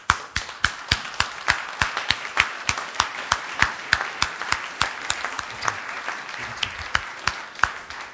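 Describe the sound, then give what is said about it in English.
Audience applause greets a visitor coming to the stage at a church talk. Many sharp, distinct claps sound in a fairly loud, steady, uneven patter throughout, with no talk. “Ladies and gentlemen, I'd like to put your hands together and welcome a visitor this morning.”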